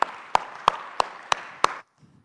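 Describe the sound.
An audience at a church gathering applauds as a visiting minister is welcomed, a bed of clapping marked by a steady beat of loud, evenly spaced claps that stops abruptly.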